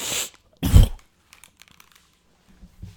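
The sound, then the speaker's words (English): Two harsh coughing bursts from someone choking on food while eating, the second louder, followed by a few faint small clicks and rustles. “okay, so if you heard that, that was me almost. I had to spit up the food that I was eating.”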